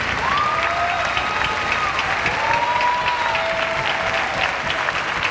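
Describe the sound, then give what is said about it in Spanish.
An audience applauding as a performer is welcomed onstage, with sustained, full clapping from a crowd that stays steady and loud from start to finish. “Y quiero que recibamos con un fuerte aplauso a Waldito Mendoza, Waldo Mendoza Jr.”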